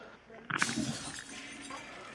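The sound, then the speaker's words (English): Glass shattering as mirrors and glass are smashed: a sudden crash with a sharp onset, then a brief, bright ringing tail that fades over about a second. “My friend is breaking all the mirrors and the glass.”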